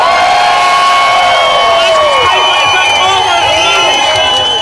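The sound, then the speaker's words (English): Loud crowd cheering and whooping at the Glasgow Pride march in Glasgow, marking 25 years of organised marches: a continuous dense roar with shrill high cries running over it. “Thousands of people have taken part in Glasgow Pride, marking 25 years of organised marches in Scotland's largest city. Use as loud as possible, Glasgow!”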